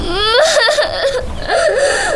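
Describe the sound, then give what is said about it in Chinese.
A child cries in fairly loud, wavering whimpers and wails that rise and dip in pitch and continue without a break. “不给买就哭啊？咱家啥条件你不知道吗？”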